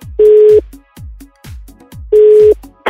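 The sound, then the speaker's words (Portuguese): Two short, steady telephone ringing-tone pulses from an outgoing call sound about two seconds apart, with rhythmic music running between them. “Então vamos ligar pra Caterine.”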